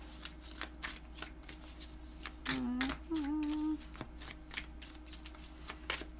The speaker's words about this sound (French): Sortir une carte pour savoir.